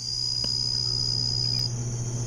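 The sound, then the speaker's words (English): Atmospheric jungle insects in Borneo form a steady, high-pitched buzzing drone, with a lower continuous hum beneath it, unbroken from start to end. “just a little bit of atmospheric insects from the jungle in Borneo.”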